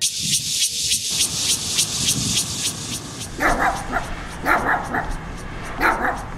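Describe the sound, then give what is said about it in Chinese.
A dog being beaten after barking in the middle of the night gives repeated sharp yelps and whimpering cries in an uneven rhythm, with a human voice briefly audible underneath. “三更半夜在那边乱叫，我是都不用睡啊，活该被打，活该被打。 哎呦，你这是要把狗啊打死哦？”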